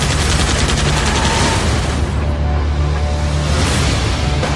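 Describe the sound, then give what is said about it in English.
Thompson submachine gun firing: loud, dense automatic fire rattles continuously, with no pause and no talk. “You any idea what a Thompson submachine gun does to a mortal?”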